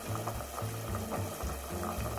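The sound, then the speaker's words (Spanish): Broth is poured into a pot over chicken, rice, potatoes, eggplant and tomato for a Palestinian dish, making a steady, even splashing and sizzling wash of sound with no talk. “Cubrimos el pollo con el arroz, y le echamos el caldo hasta que cubra todo.”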